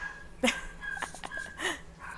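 Dogs yip and whimper faintly in the background, with a few short, high yelps spread across a quiet stretch.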